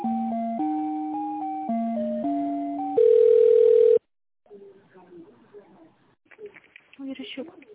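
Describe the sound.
Telephone line tones play while a call is transferred: a run of stepped electronic tones, then one longer steady tone that cuts off abruptly. After a brief silence, voices talk on the line.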